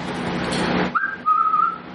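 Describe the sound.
A person whistles a short, steady, high-pitched note lasting under a second, after a burst of broad rustling noise that stops abruptly.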